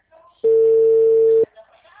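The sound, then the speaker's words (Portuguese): A telephone ringing tone plays while someone calls a clinic that does not answer: a single steady, loud electronic tone lasting about a second, with faint voices before and after. “Tentando ligar lá na clínica para marcar meu exame, ninguém atende.”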